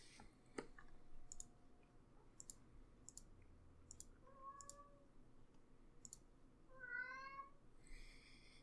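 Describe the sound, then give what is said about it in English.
A cat meows a few times, with faint, tonal cries rising out of a quiet background that is dotted with sharp, irregular clicks. “Can you hear my cat?”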